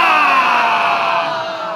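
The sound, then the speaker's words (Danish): A crowd gives one long, drawn-out hurrah for the penguins' new house, a single sustained massed shout that stays loud and then gradually fades toward the end. “vi skal slutte af med tre korte og et langt for pingvinernes nye hus. Skal vi ikke det? Pingvinernes nye hus. Længe leve! Hurra! Hurra! Hurra! Og så det lange. Hurra!”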